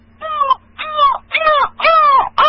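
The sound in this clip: A crow caws loudly in a run of harsh, hoarse calls, four full caws with short gaps between them and a fifth cut off at the end.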